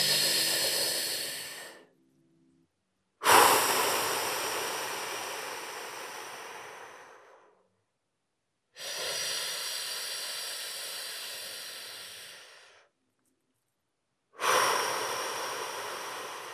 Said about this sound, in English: we can achieve that by these long, slow inhales and long, slow exhales. So if you were listening, all you would hear would be me like...